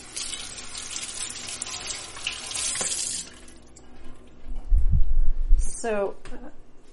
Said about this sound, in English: I just washed 3 cucumbers, but I actually don't want to use that many cucumbers.